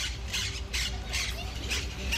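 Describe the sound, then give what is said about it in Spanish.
Monk parakeets squawking: a series of harsh, raspy, high-pitched bursts, about five in quick succession, loud over a constant low background rumble. “Cotorra argentina, también llamada perico monje, cata, catita, cotorra ventigris o miopsita monachus.”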